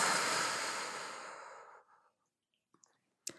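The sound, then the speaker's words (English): A deep breath, heard mainly as a long, breathy exhale that rushes out loudly and fades away over about two seconds, followed by a few faint small sounds. “So deep inhale And exhale.”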